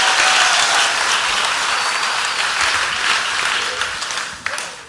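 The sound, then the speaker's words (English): A church audience at a Christmas service applauding the worship team and orchestra: dense, loud, sustained applause that thins slightly toward the end. “Let's put our hands together one more time for the worship team, for the orchestra here.”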